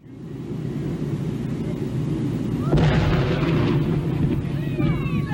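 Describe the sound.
An explosive blast blowing apart a whale carcass on sand dunes: steady wind noise, then a dull, low boom that swells into a rumbling roar, with voices heard after the blast.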